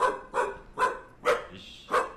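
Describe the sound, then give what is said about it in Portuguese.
A large dog barks five times in loud, sharp, slightly irregular bursts with short pauses between them and no other sound. “O nome mais... é engraçado desse cachorro. É, se fosse um pouco mais rouco.”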